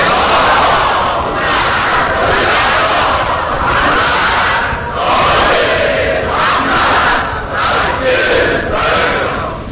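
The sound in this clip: A large crowd loudly chants the salawat blessing in unison at a religious gathering honoring Imam Hussein. The many voices form a dense, sustained roar with rhythmic swells and brief dips throughout.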